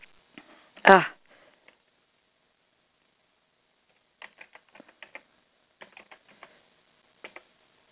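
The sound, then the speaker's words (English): Fast typing on a computer keyboard during a sign-in: after a brief louder noise and a near-silent pause, quick bursts of light key clicks come in irregular clusters. “just let me sign in. Trying to type too fast, I'm making mistakes.”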